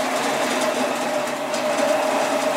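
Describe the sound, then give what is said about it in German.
A grain dehuller runs with two rotating rubber rollers husking emmer, giving off an even mechanical whir with a sustained hum and no pauses. “Friedrich Longin schaltet den Entspelzer an und schüttet die Probe hinein. In der Maschine rotieren zwei Gummiräder wie Mühlsteine.”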